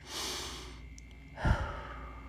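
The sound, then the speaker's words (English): A deep breath: a hissy, airy inhale that tapers off, then a brief, fuller breathy release of air, soft and heard alone without talking. “For some of you, that might mean just taking a deep breath.”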